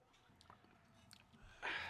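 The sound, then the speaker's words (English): Wine is tasted from a glass: a few faint wet mouth sounds, then a brief, sharper airy slurp at the very end. “It's pine. It smells pine, yeah. And then let's just taste it here.”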